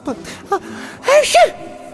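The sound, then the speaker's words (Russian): A girl with a cold sneezes: two short, whimpering voiced sounds come first, then one loud, noisy sneeze burst carrying a brief voiced cry, with no talk. “всхлипнула как-то по-детски и снова чихнула. Будь здорова.”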